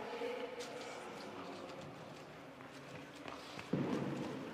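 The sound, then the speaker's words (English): A curler's footsteps patter quickly down the curling ice during a match, faint and rapid, with a steady run of light steps over a low hum of the rink. “You can hear Anne LaFontaine running down the running ice. Running down the ice.”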